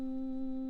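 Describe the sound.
A soft, quiet sustained tone comes from a Boston Emerald electronic organ with a key touched only lightly on its swell contact. The note is held steady, then tapers off at the end.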